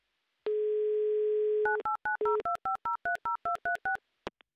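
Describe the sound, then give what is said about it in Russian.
A telephone line's steady dial tone holds for about a second, then gives way to many short, evenly spaced dual-pitch keypad beeps as a number is dialed, followed by a couple of faint clicks. “Так, номер набрали. Будем ожидать соединения. Будем ждать вашего ответа. Ну, для начала, конечно, гудков”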